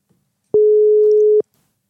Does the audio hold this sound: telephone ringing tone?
yes